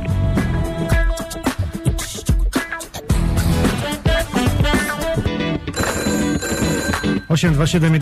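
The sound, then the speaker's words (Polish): A telephone bell rings loudly and repeatedly, set against a dense, full musical backing that runs without a break. “Telefon dzwoni”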